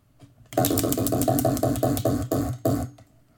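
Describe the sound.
A question wheel spins with a rapid run of regular, sharp ticking clicks that slow near the end before stopping abruptly.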